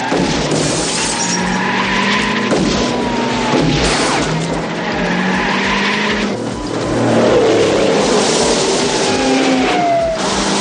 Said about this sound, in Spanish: El coche de Nick retrae su marcha y ahora intenta llegar a la altura de la cabina adelantando por la izquierda al tráiler.